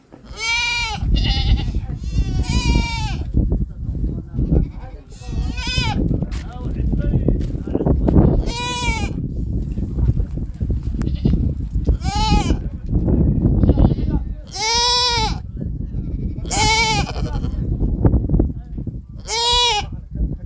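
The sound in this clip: Goats and sheep bleat repeatedly, livestock given out as zakat to poor people in Galhareeri district, Galgaduud. Many wavering, nasal bleats rise over steady crowd noise and a talking voice.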